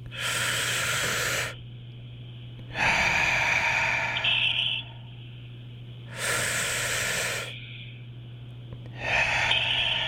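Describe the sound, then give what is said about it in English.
Deep breaths drawn all the way in and let out: long, loud, breathy rushes of air that alternate with quieter gaps in a slow, even rhythm, over a faint steady low hum, with no talking. “And let's do three really good deep breaths all the way in.”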